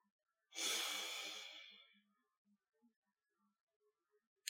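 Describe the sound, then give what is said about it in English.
A slow, breathy exhale through one nostril during alternate nostril breathing, soft and airy, fading out over about a second and a half before near silence. “with a chest full of air, I'm going to block the other nostril with the other two fingers, and then breathe out.”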